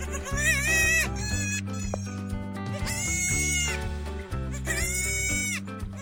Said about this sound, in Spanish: Se trata de una cabra.